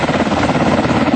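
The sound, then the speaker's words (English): A standard Black Hawk helicopter in flight gives a loud, steady, rapid chopping of rotor blades over a dense engine roar. The short burst keeps an even, fast pulse with no voices. “This is what a standard Black Hawk helicopter sounds like.”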